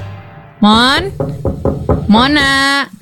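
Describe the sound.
Sharp knocking on a door: a quick run of several raps packed between two drawn-out calls from a voice, the knocks loud and dry against the vocal bursts.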